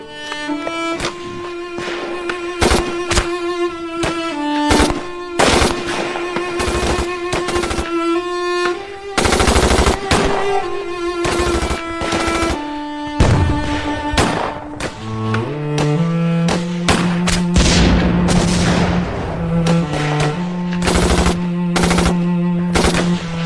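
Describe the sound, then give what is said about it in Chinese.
Gunfire in a wartime battle as soldiers shoot to draw the enemy away, with many sharp shots and rapid bursts cracking throughout, loud and dense over sustained tonal sounds. “开枪把敌人引过来，不然老百姓一个也逃不了。”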